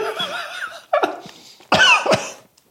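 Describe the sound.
Harsh coughing from someone choking on flour from a heavily dusted bread, with a few rough bursts that grow louder and more forceful toward the end, preceded by a strained vocal sound.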